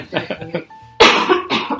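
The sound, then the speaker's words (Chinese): Harsh coughing from a person with a sore, unwell throat, a couple of rough bursts following a moment of talk, fairly loud and abrupt. “马上咳嗽给大家听。”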